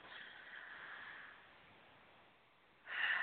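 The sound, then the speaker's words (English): A deep breath drawn slowly through the nose, a soft airy hiss that fades into near silence, then a sharper burst of breath at the end. It is faint throughout and no one speaks. “So we'd like for you to take a nice deep breath. And everyone else who wants to experience this, please breathe along with us.”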